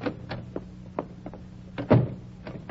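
A door being locked with a key gives a series of short, faint metallic clicks, then a firmer clunk as the lock catches, with a few lighter clicks after.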